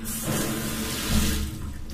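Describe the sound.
Shower water running as part of a morning routine, a steady rushing and splashing stream that stays at an even level for the whole stretch, with a brief slight swell midway and no voices.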